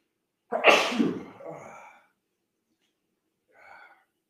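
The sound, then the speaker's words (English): A single loud, sharp sneeze set off by looking up into a light, bursting out and trailing off over a couple of seconds, followed by a faint short breath a moment later. “I'm going to sneeze. So give me a second.”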